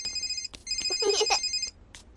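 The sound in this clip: A telephone rings with a bright, buzzy electronic trill of stacked tones that carries through nearly the whole clip with only a brief break near the end. No one speaks over it.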